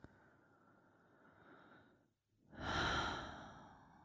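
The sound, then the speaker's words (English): Slow, deep breathing during a meditation practice: a long, soft breath, then a brief silence, then a louder, fuller breath that slowly fades. “So just taking a few more breaths here.”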